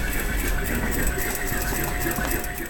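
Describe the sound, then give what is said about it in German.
Sewing machines running in a university clothing lab for textile and apparel students: a continuous, loud mechanical whir with a fine rapid pulse and a steady hum underneath, unbroken from start to finish. “Im Konfektionslabor wird eifrig genäht.”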